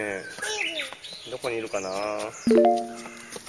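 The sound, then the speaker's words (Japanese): Japanese bush warbler song: a few sustained whistled notes near the end, heard while people talk nearby. “ウグイスが鳴いてますね。”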